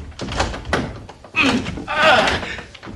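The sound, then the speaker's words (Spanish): A door lock being forced open in a radio drama: a few heavy thunks and rattling knocks against the door, loud and irregular, with a voice sounding over part of it. “¡Fuerce la cerradura!”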